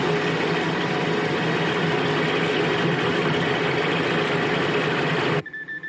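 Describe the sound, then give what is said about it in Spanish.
A cargo hoist in a World War II gun bunker lowers for more artillery shells. Its mechanical, engine-like drone holds steady and loud, then cuts off abruptly near the end. “El montacargas baja a por más obuses.”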